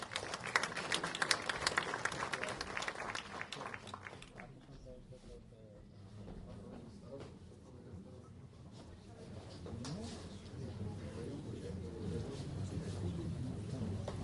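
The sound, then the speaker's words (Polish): Applause greets a medal presentation at a military unit ceremony in Lidzbark Warmiński. Dense clapping fills the first few seconds, then fades to a quieter, murmuring background. “Zapraszamy, duże brawa!”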